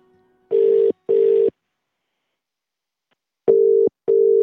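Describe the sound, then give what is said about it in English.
Ringback tone of an outgoing telephone call: two pairs of short, steady mid-pitched tone bursts, the pairs separated by a long silent gap, with no talk. “while we're on a roll on the phones, we thought we'd try John Potter, Bert Potter's son. Here we go.”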